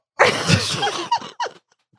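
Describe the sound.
Phlegmy throat clearing: one long, rough, wet rasp, then two short harsh catches in quick succession, loud and with no talking over it.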